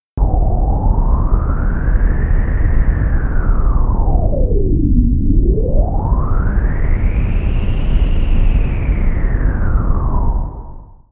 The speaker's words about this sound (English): Let's listen to a tidal cycle as measured by a bottom pressure sensor over the course of a single day. The data sonification will sound like this.